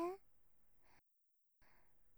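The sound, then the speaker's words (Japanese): A slow, deep breath drawn in, soft and airy and very faint, followed by a brief silence and then another quiet breath sound. “ゆっくり深呼吸しよ。吸って。”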